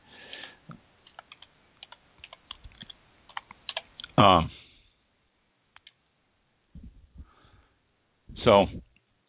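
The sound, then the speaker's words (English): Typing on a computer keyboard: quick, irregular clicks and taps for several seconds, then brief bursts of a voice with quiet gaps between them. “Y'all can hear my tick, tick, tick of my typing.”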